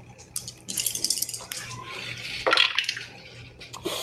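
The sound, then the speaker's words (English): Three dice are rolled onto a table during a tabletop game, making a few bright clattering rattles and clicks as they tumble and settle. “Oh, I rolled two sixes and a five, so that's going to be a nine total.”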